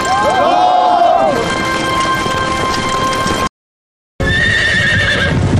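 Horses neigh over galloping hooves in a Chinese advertisement for a Year of the Horse liquor. One whinny comes early over a dense, rumbling din, then a brief silent gap, then another whinny with the pounding continuing.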